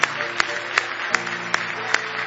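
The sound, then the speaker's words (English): A church audience claps in unison in praise, seven crisp, evenly spaced claps at a steady, moderate tempo that stay loud and regular throughout. “Oh, let's give Him a good hand clap of praise.”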